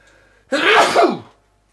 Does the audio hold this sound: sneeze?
yes